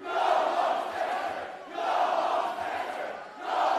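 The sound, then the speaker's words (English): Audience shouting during a white supremacist's speech at the University of Florida: a loud, massed crowd roar of yelling voices that rises and falls in repeated waves. “The audience got to speak, too. Here's how it sounded.”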